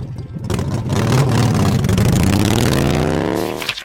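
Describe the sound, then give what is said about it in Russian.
A motorcycle engine rattles and revs loudly and continuously. Its pitch climbs steadily as it accelerates, with a rough, buzzing texture throughout. “Мотоцикл трещит. Дрын-дын-дын-дын-дын.”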